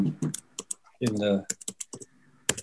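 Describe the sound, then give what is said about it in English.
Someone types on a computer keyboard in a quick, irregular run of sharp clicks. A brief voice is heard in the middle. “I better type that one in”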